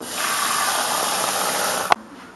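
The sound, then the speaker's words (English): Salad mix is washed under running water, a steady hiss that holds evenly for about two seconds, then stops with a sharp click and leaves near quiet. “Step one, wash the salad. We don't want any creepy crawlies.”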